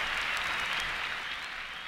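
Audience applause fills a 1938 live jazz concert at Carnegie Hall: dense, steady clapping from a large crowd that holds level throughout and eases slightly at the end.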